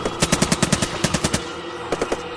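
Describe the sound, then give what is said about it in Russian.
Automatic-weapon gunfire from guards shooting at a creature near an elevator: a rapid, loud burst of many shots in a steady rhythm, then a pause and a short burst of a few more shots. “Гремели выстрелы.”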